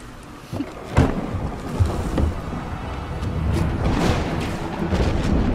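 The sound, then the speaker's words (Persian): Thunderstorm: broad, roaring wind noise with heavy rumbling gusts that swell and thicken toward the end, with no voices. “توفانه ساده است، فقط ابعادش بزرگه.”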